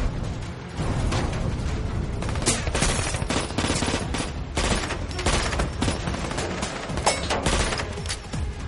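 Dense gunfire fills a dockside shootout in an action thriller as a man fires at gasoline drums. Rapid, overlapping shots and bursts run nearly unbroken and loud throughout, with sharp cracks standing out.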